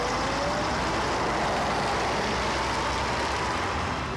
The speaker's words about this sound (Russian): Едет в автобусе.